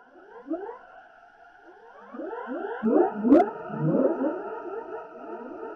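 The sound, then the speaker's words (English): Whale-like moaning song of an Alpha Centaurian space whale funeral procession: many overlapping gliding, siren-like tones layered into a dense chorus that grows louder midway. A single sharp crack cuts through near the middle. “This is a recording I did when I was living on the back of an Alpha Centaurian space whale. What you're hearing now is a space whale funeral procession.”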